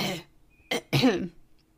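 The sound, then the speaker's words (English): A person clears their throat in three short, rough bursts with brief silences between them. The last burst is the longest and fullest, ending in quiet. “cleared my throat”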